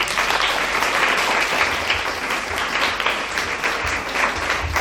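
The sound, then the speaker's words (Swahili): Applause from an audience welcoming a teacher to open a Christian children's programme: dense, steady clapping that holds at an even loudness for the whole stretch, with no voices over it. “Tafadhali karibisheni kwa makofi.”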